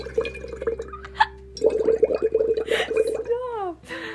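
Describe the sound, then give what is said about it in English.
Bubbling and gurgling from air blown into a cup of coffee: a rapid, loud burst of bubbles, then a short falling, warbling gurgle as the blowing stops. “So that's the sound of the coffee.”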